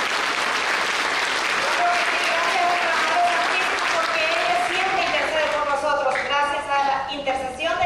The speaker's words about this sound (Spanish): Pero fuerte, ese aplauso no es para nuestra Madre. Nuestra Madre Santísima se merece una ofrenda de palmas fuertísima, fuertísima.